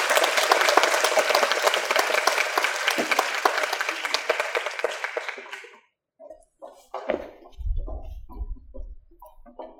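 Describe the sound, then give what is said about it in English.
Audience applause welcoming a translator to a small lecture: dense, steady clapping for about six seconds, then it stops abruptly, leaving near silence with a few faint low sounds. “那我们现在用最热烈的掌声欢迎 Gash Michael 为我们翻译宋欣荣小姐。”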